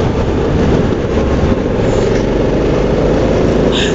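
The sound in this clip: Loud, steady droning engine and road noise from an automatic twist-and-go motor scooter with a windscreen while riding, a continuous low rumble that holds evenly throughout with no voices.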